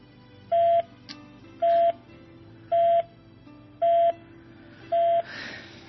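A dropped phone call on a radio call-in line, from a caller in Quetta, sounds as five evenly spaced, steady mid-pitched beeps over a low hum, followed by a brief burst of hiss.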